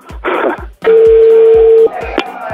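Telephone dialing a call: a loud burst of tones, then a long steady held tone that cuts off, followed by a brief sharp beep.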